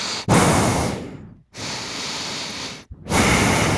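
Someone breathes heavily straight into a microphone: three loud, hissing, gusty breaths, each lasting about a second, separated by short pauses.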